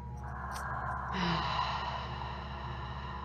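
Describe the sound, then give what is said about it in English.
Someone takes a slow, deep breath, a soft airy sigh that swells near the middle over a steady low background hum. “Taking a deep breath here.”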